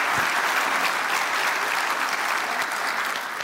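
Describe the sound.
Sustained applause from an audience welcoming a speaker at Nineveh: a dense, steady patter of many hands clapping that stays loud for the whole stretch, tapering only slightly at the end.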